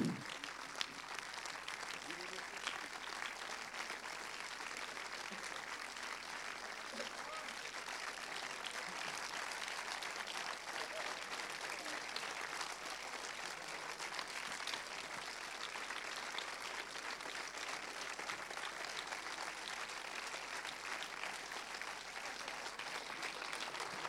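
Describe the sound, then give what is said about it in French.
Sustained applause from an audience welcoming a film director and an actor before a recorded debate: dense, even clapping that holds steady for the whole stretch without letting up. “Donc je vous demande d'applaudir euh, et d'accueillir Guillaume Renusson, le réalisateur, et Denis Ménochet.”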